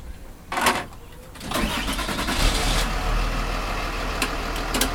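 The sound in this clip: A car engine starting: a brief cranking burst, then the engine catches and settles into a steady, rumbling run with a few sharp ticks over it.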